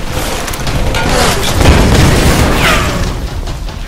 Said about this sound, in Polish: ten mogę dorzucić granatem, czy nie?